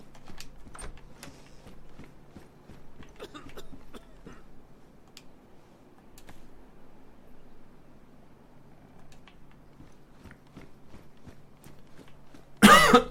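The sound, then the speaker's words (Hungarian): A person coughing several times, sharp short bursts scattered over a quiet, faintly humming background, with a louder, harsher burst right at the end. “már nem csak a karakterem köhög, de én is.”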